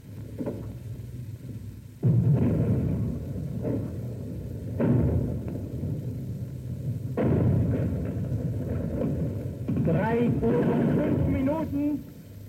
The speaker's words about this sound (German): Im Augenblick hat hier das Feuer begonnen. Wir sehen die Panzersprenggranaten, die Leuchtspur durch die Luft saugen und drüben einschlagen.